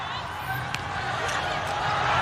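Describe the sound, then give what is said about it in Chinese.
A table tennis serve in a match involving China's team, heard as a few faint, light ball taps under a steady murmur of crowd noise. “梁书明上来发球”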